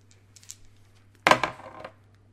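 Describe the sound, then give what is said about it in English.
Dice rolled for damage in a tabletop role-playing game give a short, sharp clatter of several quick bounces and rattles on a table, after a few faint clicks. “Okay. But it hit. All right, well, roll for your damage then.”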